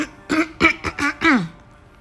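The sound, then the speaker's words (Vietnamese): Coughing from a person who stops mid-sentence, a short run of about five throaty, partly voiced coughs in quick succession, moderately loud and heard alone before quiet returns. “đợi mình một chút, mình bị ho”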